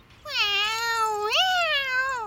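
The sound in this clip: A cat meows alone in one long, drawn-out call with rich harmonics. Its pitch rises partway through, then levels off.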